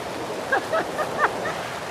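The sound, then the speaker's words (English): Waterfall in Zambia, water crashing at the base of the falls beneath a hanging bridge, a dense and constant rushing roar that stays even throughout. “A bridge hanging over the base of the falls.”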